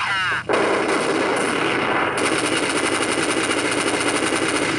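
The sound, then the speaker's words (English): Rapid automatic gunfire from the Counter-Strike video game, loud sustained bursts of shots rattling almost continuously after a brief quieter opening. “At rows of computers that rent for $2 an hour, teens exchange gunfire and hunt down heavily armed terrorists.”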